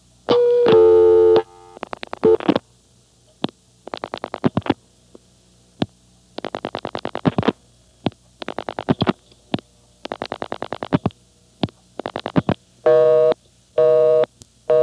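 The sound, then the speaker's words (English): A telephone busy signal during a dialing demonstration on an old exchange line, heard as bursts of tone separated by gaps, with rapid clicking pulse trains between them and no speech. “Notice that it's busy. The call has already gone through.”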